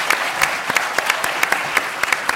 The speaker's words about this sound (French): Yamène Manaï, que vous pouvez applaudir